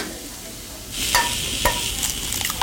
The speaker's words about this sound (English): What, the egg now, right? Scrambled egg. Scrambled egg, okay.